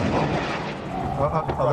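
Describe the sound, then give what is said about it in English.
An incoming rocket salvo over Ashkelon in southern Israel near the Gaza border: a loud, continuous, rumbling roar of blasts with no clear gaps, with voices audible over it. “Rockets in the air.”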